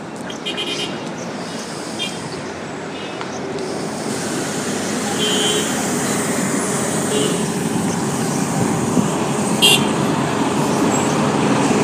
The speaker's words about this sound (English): It's now 5:30 and the bus should be arriving. There it is now.